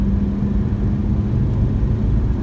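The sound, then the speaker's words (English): Steady low rumble of a car driving slowly along a rural road past a group of houses, with constant engine and tyre drone and no talk. “You see here right now we got a group of houses on the road, so I'm always hesitant to drive too fast through here, because I want to respect, people's residence out here.”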